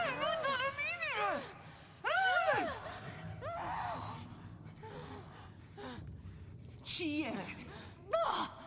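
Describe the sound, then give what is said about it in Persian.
Muffled gasps and strained, moaning breaths come from a gagged person who cannot breathe, arriving in several loud bursts with quieter straining in between. “نمیتونه نفس بکشه، دستمال از تو دهنش در بیار.”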